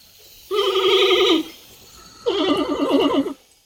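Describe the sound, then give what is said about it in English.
A panda vocalizing: two bleating calls of about a second each, separated by a short pause. Each call has a quavering, wavering pitch and a nasal, horse-like timbre, and they are loud and clear with no talk. “Here's the reveal of last episode's mystery sound. That sound came from a panda.”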